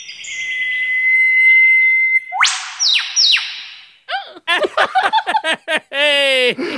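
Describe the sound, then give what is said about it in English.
Eastern whipbird call: a long, steady, high whistle, then sharp upward-sweeping whip-crack notes, followed by a run of short, choppy notes. “Here is an actual eastern whipbird for Gemma.”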